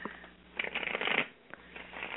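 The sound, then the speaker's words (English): A deck of playing cards being shuffled: muffled riffling and flapping bursts, loudest in a rush through the middle, followed by softer brushing and a short flick before the cards settle again. “I'm going to ask you to tell me when to stop thumbing through the deck.”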